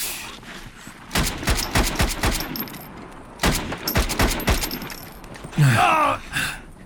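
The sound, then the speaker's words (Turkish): Gunfire in repeated bursts of sharp, loud cracks, clustered in quick rapid volleys separated by short pauses, with a brief metallic rattle near the end and no talking. “Ben ateş edeyim, siz koşun. Ben koşarken beni koruyun.”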